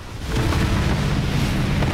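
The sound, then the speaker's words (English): A spaceship crash-landing into compacted snow, rock and ice while belching fire: a loud, dense, low rumbling roar swells in quickly and holds steady to the end. “Jupiter II crunches into compacted snow, rock, and ice and belches fire.”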